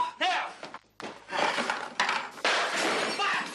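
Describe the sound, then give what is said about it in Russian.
A glass lamp shattering as a revolver bullet hits it in a film scene: loud, broad crashes and crackling bursts of breaking glass, with a voice briefly heard among them. “Пуля разбила лампу.”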